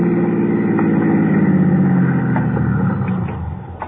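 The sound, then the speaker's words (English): A car engine hums low and steady as the vehicle pulls into a toll plaza, a continuous rumble that eases and fades near the end. “Pull into that toll plaza for a second, will you? I want to check with the boys. Yeah, sure.”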